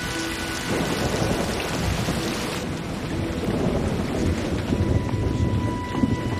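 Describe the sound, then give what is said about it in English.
A raging thunderstorm with heavy rain pattering constantly on surfaces while low thunder rumbles underneath, a dense, continuous wash of storm noise with no voices. “Back in town, thunder and lightning usher in the raging storm.”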